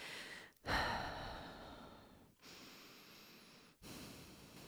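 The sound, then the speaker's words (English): Slow, deep breathing during a guided prayer: long, airy rushes of breath in a few separate stretches with short pauses between them, the first the loudest and the later ones softer, with no talking. “And so let's do that by just taking two deep breaths.”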